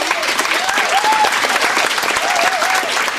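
An audience applauds an author at the close of a live interview, a dense, steady wash of clapping hands that holds at a constant loud level throughout.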